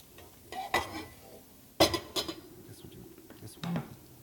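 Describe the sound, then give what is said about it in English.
A pan is handled on a stove to heat oil, giving a few metallic clanks and clatters with softer rustling and scraping between them. “So next, we need a pan hot with some oil. Okie dokie. Pan hot with some oil.”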